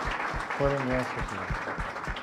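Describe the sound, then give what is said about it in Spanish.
Congregation applause at a Mass for seminarians about to begin a mission: a run of soft claps under a voice that keeps talking over it. “Muy bien, pues les damos unos aplausos a los seminaristas que van a empezar la misión.”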